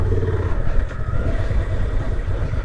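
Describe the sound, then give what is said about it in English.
Engine drone of a Trans Alp motorcycle being ridden, a loud, steady rumble blended with wind noise that holds an even level throughout without clear revving. “this is the first time I've been on a Trans Alp since that press launch in Portugal. And immediately I'm getting that same feeling of feeling really at home on the bike.”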